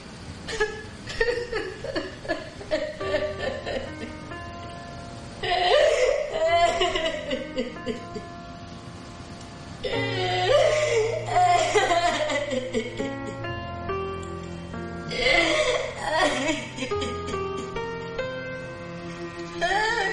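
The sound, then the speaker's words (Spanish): A woman alone at a bathroom mirror breaking into tears, sobbing in repeated shaky, gasping bursts separated by brief pauses, with a soft tonal backing underneath. “se queda mirándose en el espejo unos segundos y rompe a llorar.”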